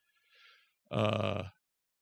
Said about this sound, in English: the contagious yawn. Sorry, man.